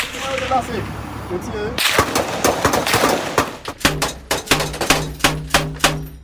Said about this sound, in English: Rounds hit the armoured vehicle. They think they see where the gunmen are.